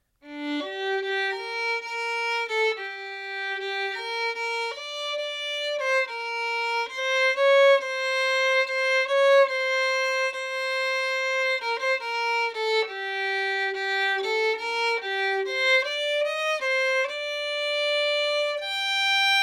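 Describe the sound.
Solo violin plays the first section of a klezmer tune with no phrasing or ornamentation. Many clean, evenly bowed notes move stepwise through a melody at moderate volume, each held plainly without slides or embellishment.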